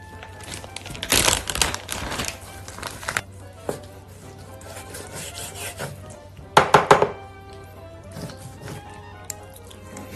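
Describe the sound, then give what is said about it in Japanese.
Knife cutting vegetables, including onion and carrot, with chicken, for a Thai yellow curry: irregular scraping and chopping strokes over a faint hum, with a louder cluster of quick cuts near the end. “もう一個野菜は固形状態なんで、ちょっと千切り、千切りっていうかいい感じに切っていきます。”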